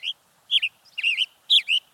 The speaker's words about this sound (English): A male western tanager chirps loudly from the branch of a Douglas fir.